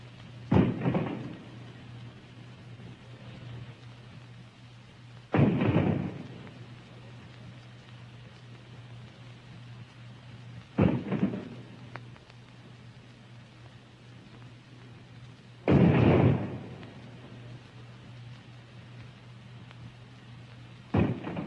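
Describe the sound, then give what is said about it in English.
Booms of a 19-gun salute fire as the Memphis docks. Five dull, heavy reports come at roughly even intervals with a quiet, noisy hush between them. “The 19 guns we just listened to”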